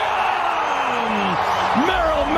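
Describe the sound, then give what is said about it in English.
At Petco Park, a San Diego crowd roars in a steady broad wash for a go-ahead Padres home run against Milwaukee, with an announcer's voice over it. “That San Diego crowd sounded nice, too, I have to admit.”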